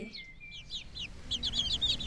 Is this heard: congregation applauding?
no